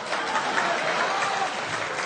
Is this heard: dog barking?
no